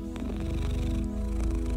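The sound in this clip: A cat purrs in a continuous low, rhythmic rumble of fast pulses, moderately quiet, with a steady tonal hum alongside.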